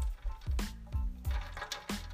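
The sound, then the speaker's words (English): A straw stirs ice in an iced coffee filled to overflowing in a cup that is too small, making many quick rattling, sloshing clinks in an uneven rhythm at a soft level, with no talking. “get your favorite straw, put it in there and stir it around.”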